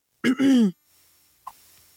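A single throat clearing from a phlegmy throat irritated by pollen: one short, voiced, two-part rasp, loud and alone, followed by quiet and a faint click.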